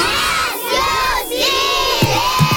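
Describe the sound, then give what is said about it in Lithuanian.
A celebratory fanfare effect played for a radio quiz winner: a loud crowd cheering and shouting in sustained, tonal voices, with two short dips in the noise and a few low thumps near the end. “O čia fanfaros”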